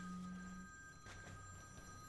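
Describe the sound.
A mobile phone ringing faintly, a thin steady electronic ring over a soft low hum, with no one talking.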